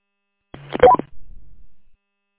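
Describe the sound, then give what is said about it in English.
A radio roger beep closes a transmission: a brief run of quick tones that step upward in pitch inside a short burst of radio noise, then a low, rumbling tail of static. “I think you could do us all a favor and turn off the Roger beep.”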